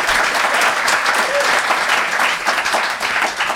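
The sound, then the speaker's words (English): Audience applause as a live crowd votes for a pair of contestants by clapping: loud, dense clapping that keeps up steadily from start to finish. “if you think they made the best case, please applaud now.”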